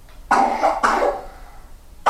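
A person coughs: two loud, harsh coughs with a short gap between them, then the start of a third cough at the very end.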